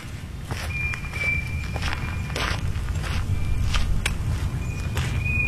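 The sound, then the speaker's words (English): Footsteps on a walk through Towner's Woods in Portage County, a steady run of many crunching steps over a continuous low rumble, with no voices. “A walk in Towner's Woods in Portage County.”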